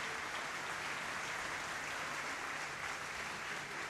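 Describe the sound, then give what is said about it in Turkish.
Concert hall audience and fellow performers on stage give a soloist a thunderous round of applause, dense and even clapping that stays loud and unbroken from start to finish. “sahnedeki sanatçı arkadaşları hem salondaki seyirciler müthiş bir alkış tufanıyla”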